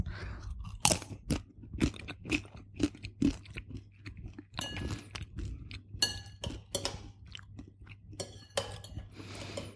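Crunching of a taco chip dipped in salsa verde made with jalapeños: many sharp, crisp bites and chewing crackles in an irregular rhythm, loud and close, with no talking.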